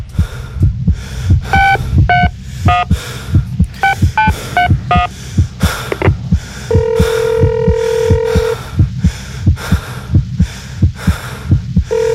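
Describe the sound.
Telephone keypad tones as a number is dialed: several quick beeps in short bursts, then one long steady ringing tone, all over a loud, regular heartbeat-like low throbbing pulse.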